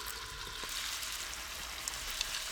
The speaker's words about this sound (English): So while the chicken's getting cooked